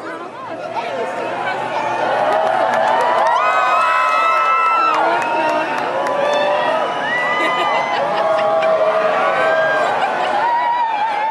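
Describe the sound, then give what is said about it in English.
A crowd in Illinois cheers at the total solar eclipse of August 21, swelling quickly into sustained shouting, whoops and excited chatter, with children's voices mixed into the loud, continuous roar. “That's the sound of a crowd in Illinois watching the total solar eclipse that swept across the U.S. on August 21st.”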